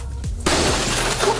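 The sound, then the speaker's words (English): Glass smashes in a rage room: a sudden loud shatter breaks out, then a dense, crunching and tinkling noise continues to the end. “Oh, that was glass.”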